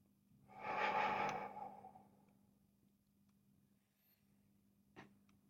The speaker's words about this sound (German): Und dann atme ich wieder vollständig und tief wieder aus.